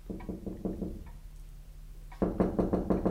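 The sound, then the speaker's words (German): Knocking on a door in a radio drama scene: a steady run of rhythmic knocks, a brief lull, then a louder, firmer series of knocks. “Wer klopft denn da? Herein!”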